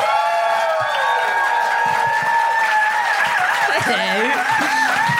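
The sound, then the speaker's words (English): Audience whooping and applauding as a stand-up comedian is welcomed to the stage: a continuous, steady wash of clapping and crowd noise with high, wavering whoops rising and falling above it. “Oh, it's such nice whooping.”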